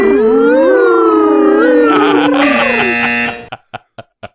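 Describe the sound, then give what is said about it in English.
A synthetic sound effect for travelling back in time, made of loud warbling siren-like tones that waver and bend in pitch, cuts off abruptly and is followed by four short, evenly spaced electronic blips. “Is that our best sound effect going back in time that we can come up with?”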